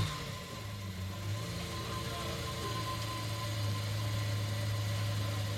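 A Lamborghini Aventador SV supercar engine idles as a low, steady droning rumble with a faint hum, holding evenly throughout.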